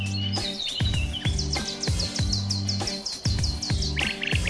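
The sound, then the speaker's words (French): A nightingale sings at dawn in a grove, pouring out a loud run of rapid, high, repeated chirps and whistled notes in quick succession. “vous entendez un beau son. Qu'est-ce qu'il est mélodieux. Et là, franchement, c'est très facile à reconnaître qu'on l'a derrière chez soi. Eh bien, c'est le rossignol Philomène”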